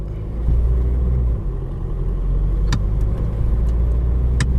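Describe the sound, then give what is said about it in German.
Two sharp clicks from a plastic wheel under a car pedal running on a metal rail, in an automatic car just shifted into Drive, cutting through a steady low engine rumble. “Dieses Klacken, was man so hört im Hintergrund, das ist so ein Plastikrädchen, das unter dem Pedal befestigt ist, weil das Pedal läuft auf einer Metallschiene”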